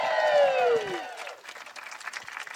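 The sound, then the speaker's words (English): Audience applause and clapping welcome guests onto a stage at a live show. A loud drawn-out cheer falls in pitch, then gives way to dense, steady clapping that stays moderately loud to the end. “Could you please put your hands together? Welcome to the stage.”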